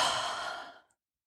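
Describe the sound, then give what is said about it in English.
A single deep breath released in a guided breathing exercise, heard as one long, airy exhale that starts strong and fades smoothly away in under a second, with no talk. “So just stop what you're doing and just take a big deep breath in and release it.”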